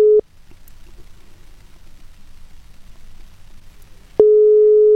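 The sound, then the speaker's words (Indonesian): Phone call tones sound while dialing someone: a brief steady tone at the start, then a long pause filled only by low background noise, and the next loud tone begins near the end. “Oke, aku akan coba untuk menghubungi beliau.”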